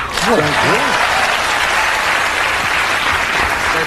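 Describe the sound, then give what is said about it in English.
Studio audience applause on a morning talk show: dense, steady clapping that fills the whole stretch at an even loudness, with a voice heard briefly near the start. “you did that just to get applause?”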